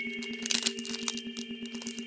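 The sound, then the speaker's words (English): Two trading-card packs stuck together are peeled apart with crinkly, crackling bursts, strongest in a cluster near the start, over a steady electrical hum. “Look at that. Whoa, it's just like peeling. These two packs are stuck together.”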